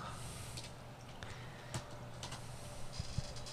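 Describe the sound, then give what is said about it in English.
Computer keyboard typing as a name is entered into a search: quiet, uneven clicks of keys in short bursts, faint throughout. “Just type in Mr. Peanut. That's all you got to do.”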